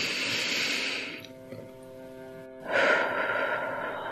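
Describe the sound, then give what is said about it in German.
Slow, deep breaths drawn in and let out through the mouth during a guided breathing exercise: two long airy rushes of breath, separated by a quieter pause, over soft sustained background tones. “Noch einmal tief einatmen und durch den Mund ausatmen. Ein letztes Mal bewusst einatmen”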